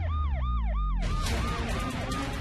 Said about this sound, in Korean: 하루 두 번 운행하는 여객선 출발 시간에 맞춰 도착한 구급차.